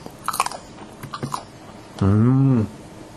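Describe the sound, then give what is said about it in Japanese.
Sausage skin snapping as it is bitten, a quick series of crisp, crunchy snaps over the first second and a half, followed by a short voiced hum. “ソーセージがパチンっていうのを弾ける感じも、またこれもいいですね。 いいですね。 音を聞いてください。”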